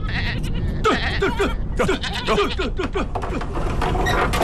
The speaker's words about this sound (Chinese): 娘要产崽了，天这么冷，小羊羔冻死咋办呢？ 哎呀，快快快，把母羊赶到我屋里来。